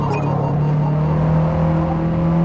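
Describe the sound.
A racing car engine droning in the Forza Motorsport video game, with a steady low tone held throughout and a constant loud hum and no talk.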